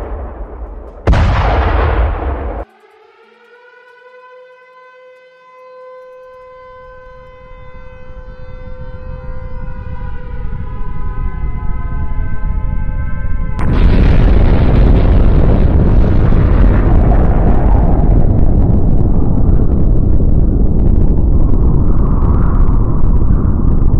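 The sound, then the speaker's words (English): Video game missiles fire from a missile launcher: a sharp burst, then a long droning whine with layered tones, then a loud, sustained roaring rumble of explosions that lasts to the end. “I got to load up my missile launcher. Well, there it goes! My missiles!”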